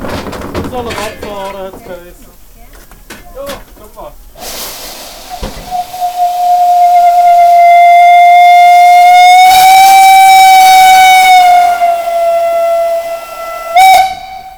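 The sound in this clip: A steam locomotive's whistle sounds as a steam train departs. It holds one long, loud, steady tone with rich harmonics over hissing steam, followed by a short extra blast near the end. Brief voices come before the whistle.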